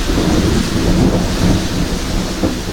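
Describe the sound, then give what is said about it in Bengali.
Heavy rain with thunder: a loud, dense downpour roars steadily throughout, with deep low rumbling running underneath and no voices. “কিছুক্ষণ গল্প গুজবের পরে উঠতে যাচ্ছি, এমন সময় ঘোর বৃষ্টি নামল।”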